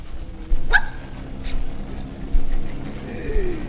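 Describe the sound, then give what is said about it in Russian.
A pedigree dog barks and yips, giving a few short, sharp calls spread over several seconds above a low background rumble, with no talking. “А это ваша собака? Да, моя.”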